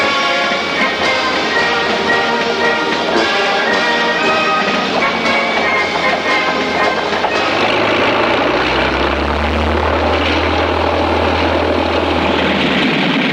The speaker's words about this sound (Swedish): Brittiskt och franskt bombflyg anföll pontonbroarna över Mös med hänsynslös djärvhet.